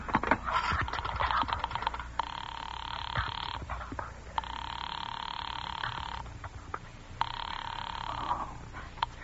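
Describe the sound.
Telephone ringing: three long, buzzing rings separated by short pauses, with a few scrapes and clicks before the first ring.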